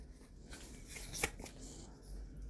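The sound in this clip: Tarot cards being shuffled, with a continuous papery riffle and rustle, and one sharper snap near the middle.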